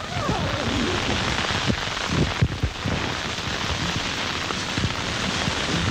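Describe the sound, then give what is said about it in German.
Storm wind of near hurricane strength roars at a high-altitude mountain camp on Annapurna while snow is shoveled from a tent, a dense, continuous rushing noise with irregular low buffeting thumps throughout. “In dieser kurzen Zeit, während der Reinhard Batschei da außen den Schnee wegschaufelt, nimmt der Sturm fast Orkanstärke an.”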